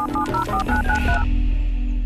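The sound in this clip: A telephone number being dialed produces a quick run of short touch-tone beeps at varied pitches, followed by a steady low hum with no voices.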